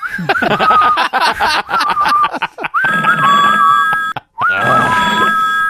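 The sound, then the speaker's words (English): A telephone rings at an emergency services dispatch desk: a loud, continuous electronic warbling tone with a steady high pitch, briefly cut off twice before resuming. “Answer the goddamn phone. I think it's your turn. Hey, the guy could be down. Pick up the phone.”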